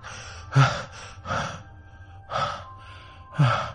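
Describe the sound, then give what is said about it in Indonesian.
Heavy gasping breaths of a person waking suddenly from a nightmare, with four loud, rough panting bursts at a steady rhythm and quieter breathing between them. “Tiba-tiba aku bangun dengan nafas yang ngos-ngosan. Sialan, aku mimpi buruk.”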